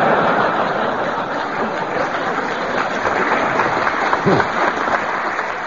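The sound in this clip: An audience applauds to welcome guests at a comedy family-night introduction, a continuous, even patter of clapping that carries on steadily for the whole stretch.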